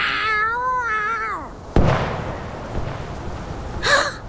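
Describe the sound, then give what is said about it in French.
A female cat fighting for her survival yowls with a loud, wavering, drawn-out cry, then a sharp sudden crack sounds, and a short yowl rises again near the end. “T'as jamais vu une chatte qui se bat pour sa survie?”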